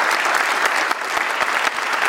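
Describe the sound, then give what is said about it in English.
Audience applause at a film festival: dense, steady clapping from a sizable crowd that fills the whole stretch at an even, fairly loud level, with no talk over it. “let's, for the hell of it, let's just have a round of applause for Michael Moore”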